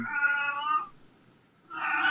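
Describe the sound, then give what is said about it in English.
Cat meowing: two drawn-out meows separated by a short silence, the second cut off at the end. Both are clear and fairly loud, with no talk. “the sphinx does not make a sound of a cat.”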